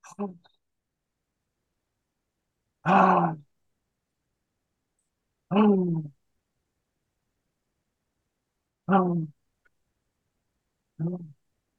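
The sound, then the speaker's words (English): Voiced, open-mouthed exhales during a group breathing exercise: about five short, breathy 'haa' sounds spaced a few seconds apart, separated by silence. “Big deep breath, guys. Everyone wide open mouth. R and ha.”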